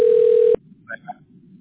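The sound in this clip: An unanswered telephone call rings with a short, steady single-pitch tone that stops abruptly after half a second, leaving a quiet line with a few faint, brief sounds.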